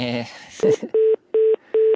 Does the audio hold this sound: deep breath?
no